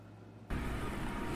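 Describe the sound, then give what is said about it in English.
A motor vehicle engine revs hard as the throttle is opened, jumping abruptly from a low idling rumble to a loud, sustained roar after about half a second. “I'm cranking up on the throttle.”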